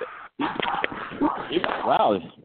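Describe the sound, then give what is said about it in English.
A dog whimpers and yips in the background, with a brief rising and falling whine near the end, mixed in with voices talking throughout. “even the dog's popping in the background.”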